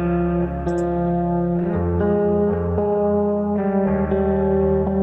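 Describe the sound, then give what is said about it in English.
Distorted guitars recorded for a music production session: thick, steady sustained chords with a dense, buzzing tone that changes a few times and plays without any voices. “The guitars, they just sound like this. So this one is like the one that my friend recorded.”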